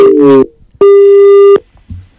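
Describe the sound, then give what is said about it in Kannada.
A telephone line tone sounds as a caller connects, one steady, buzzy tone lasting under a second. Brief voice fragments come just before and after it. “ಈಗೊಂದು ಕರೆ ಇದೆ sir, ಕರೆ ಸ್ವೀಕಾರ ಮಾಡೋಣ.”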